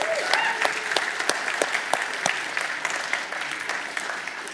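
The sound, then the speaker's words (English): An audience applauds after a performance of drums, piano and singing. Dense, steady clapping fills the whole clip at an even level, with no talking. “Should we give them a round of applause for that, actually?”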